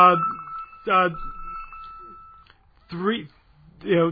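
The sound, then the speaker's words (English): A telephone rings with a steady electronic tone lasting a couple of seconds, while someone speaks in short phrases over and after it. “My apologies. The phone rang. I apologize.”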